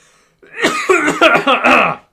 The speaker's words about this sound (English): Got a little frog in my throat there.